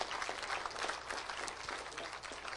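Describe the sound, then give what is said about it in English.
An audience applauds for three visiting churches, with dense, steady clapping that holds evenly throughout and stays fairly faint. “Can we give these three churches a hand that I know of that are here?”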